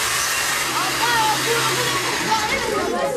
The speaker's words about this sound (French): Plusieurs outils sont ici à disposition des visiteurs. La machine à pompage remporte aussi un franc succès.